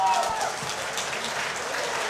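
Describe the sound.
An audience applauds a performing folk music group, the Zierwitzbuben with Betsy, in a steady, dense patter of many clapping hands that holds at an even level throughout.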